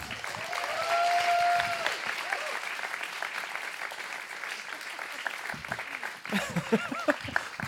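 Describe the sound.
Audience applause welcoming a co-host onto a live stage show: a steady wash of clapping that thins out near the end as a voice starts talking over the last scattered claps.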